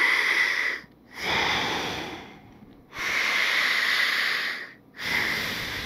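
A breathing sound effect of loud, airy breaths in slow cycles. Long hissing breath phases are broken by brief pauses, with no voices present.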